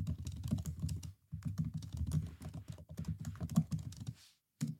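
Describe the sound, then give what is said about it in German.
Ten-finger touch typing on a computer keyboard: quick, rapid key clicks, fairly quiet. The run breaks off briefly near the start, then resumes and ends with one short burst after a pause. “Und jetzt guck mal, und jetzt hört sich, so hört sich ein 10-Fingersystem an.”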